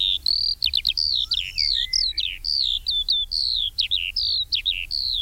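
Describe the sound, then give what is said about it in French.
A Eurasian skylark sings in flight over farmland, pouring out a continuous, high-pitched stream of rapid chirps, trills and short warbled phrases with barely a pause. No voices are heard. “Et sa cousine, évidemment, l'alouette des champs, qu'on a entendu une ou deux fois en vol. Alors, elle chante en volant à 50 ou 100 mètres au-dessus de vous.”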